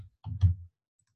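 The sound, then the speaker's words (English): Keys pressed on a computer keyboard for the Control and Z shortcut give a few soft, low clicks and thumps in quick succession, alone with no talking. “And if I hit Control Z on the keyboard,”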